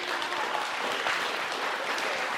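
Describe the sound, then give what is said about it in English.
Audience applause for foster carers, a dense, even hiss of many clapping hands, held steady and fairly soft for the whole stretch with no speech. “Let's give them a clap. You give them a clap.”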